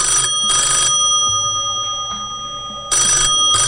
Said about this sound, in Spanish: Escuchen, un anillo de teléfono electromagnético.